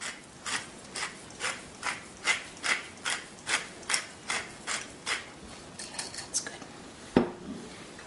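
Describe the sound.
Fresh pepper being ground from a mill while a lemon-and-salt mixture is seasoned: many quick, evenly spaced ratcheting bursts, faint and rhythmic, then a single duller knock near the end.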